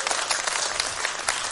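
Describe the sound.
Applause as a church audience starts to clap during a sermon: a dense, even wash of many hands clapping together, loud and continuous throughout.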